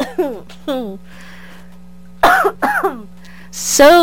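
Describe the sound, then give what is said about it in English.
Coughing from a person getting over a cold: several short, harsh, throaty bursts, some in quick pairs, separated by brief silent pauses. “I am just getting over a little cold, so I do have a cough. So I'm sorry if I cough while I'm talking.”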